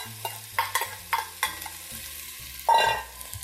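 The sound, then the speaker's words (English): Minced ginger and scallions stir-fry in hot oil over intense heat. A run of sharp stirring scrapes and sizzles is followed by a louder burst of frying near the end. “Here goes my minced ginger. Stir that up. Get it good and cozy with the oil. Here are my scallions.”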